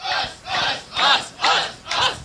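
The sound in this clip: Crowd cheering along with a song performance, in five loud, rhythmic bursts of broad noise spaced about half a second apart, with no talk over it.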